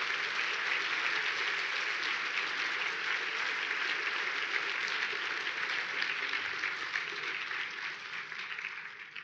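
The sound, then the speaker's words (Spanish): An audience at a Spanish-language event applauds loudly to welcome a guest. The thick, continuous roar of many hands clapping stays steady for several seconds and then tapers slightly near the end. “así es que recíbelo con un fuerte aplauso, Ryan Ries.”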